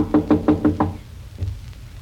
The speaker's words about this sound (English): His door's closed. We better knock.